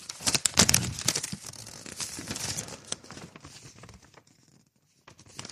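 Paper crinkling and rustling as an envelope holding a check is opened, dense crackly handling noises that gradually thin out, stop briefly, then return as a few last faint crinkles.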